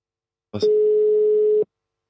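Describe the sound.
While a call is being placed, a short click gives way to a single steady telephone ringing tone, a clean mid-pitched beep lasting about one second, then the line falls silent.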